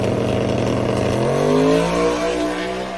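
Drag racing car engine roaring loudly as it launches into a power wheelie after the 60-foot mark, rear rising and front not tied down; the pitch climbs steadily as the car accelerates.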